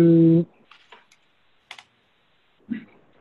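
Keystrokes on a computer keyboard: a brief steady tone opens, then a handful of soft, sparse taps spaced out across the rest of the moment.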